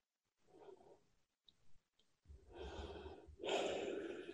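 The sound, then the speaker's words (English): Deep breathing from one person: a soft inhale, a few faint mouth clicks, then a long, loud, airy breath followed by another full one, with no talk. “Good breath, good breath.”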